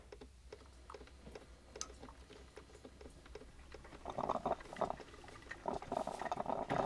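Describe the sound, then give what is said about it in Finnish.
Coffee brewing in a kitchen: faint crackling ticks and light patter that build after a few seconds into louder, steady bubbling and hissing like boiling water. No one speaks. “Mä menen odottaa keittiöön. Tässä ei mene kauan. Mä keitän kahvin. Mä keitän kahvia!”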